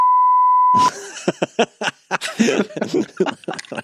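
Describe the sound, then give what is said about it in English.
A steady, loud censor beep tone lasts just under a second and cuts off abruptly. Chuckling and laughter follow. “yes, I get to use the beep.”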